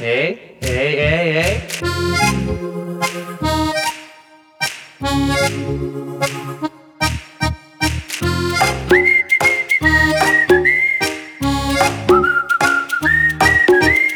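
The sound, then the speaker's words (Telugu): A person whistles a tune, a loud, clear melody of bright sustained notes and quick pitch runs that shift up and down throughout, with short staccato phrases mixed in. “హే, ఇంకొకసారి whistle అయ్యవా please please please.”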